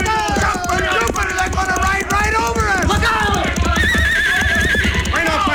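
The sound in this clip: Horses galloping along a town street during a Western-style gunfight, with loud, constant hoofbeats, repeated high whinnies and men shouting over the commotion.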